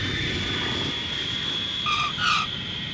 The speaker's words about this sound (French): Cet avion est magnifique. Il paraît que c'est le jet privé le plus cher du monde.